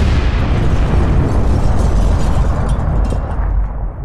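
A bomb triggered by remote switch blasts through a house's brick front wall, producing a loud, heavy explosive roar with deep rumble that sustains for about four seconds before easing off slightly at the end.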